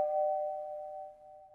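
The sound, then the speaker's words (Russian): A faint doorbell chime rings alone as a sustained, even tone that slowly fades over about a second and a half. “И тут в дверь позвонили.”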